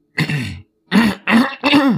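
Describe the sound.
A person clears their throat and coughs in four harsh, raspy bursts: one longer rasp, a short pause, then three quick bursts in close succession.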